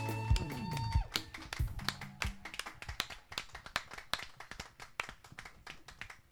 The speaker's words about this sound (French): Est-ce qu'on peut acclamer la Vierge Marie